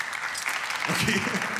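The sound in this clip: A few audience members at a live show clap in response to a quick age poll. The short burst of applause is mixed with voices, and the clapping stays fairly even throughout.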